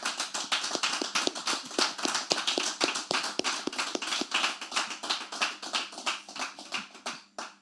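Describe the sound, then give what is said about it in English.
Hands clapping in thanks at a Christian worship gathering: a long run of many sharp, crisp claps at a steady, brisk rhythm, easing slightly toward the end. “Please, let's put our hands one more time and say thank you.”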